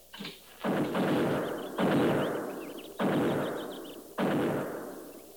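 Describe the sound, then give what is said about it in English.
Buffalo guns firing: a faint early shot, then four heavy booms spaced about a second apart, each one followed by a long, rumbling decay. “Buffalo guns. That's one sound they can't muffle.”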